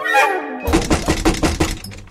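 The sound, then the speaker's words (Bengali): Someone banging hard on a door, a rapid, evenly spaced run of loud, dull thuds that comes right after a short stretch of talk. “উফ, দরজা ধাক্কাচ্ছে শোনো, যেন ভেঙেই ফেলবে।”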